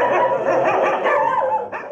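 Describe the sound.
Dogs bark at an animal shelter in Dushanbe in a loud, dense chorus of overlapping barks and yips that runs without a break, with no talk.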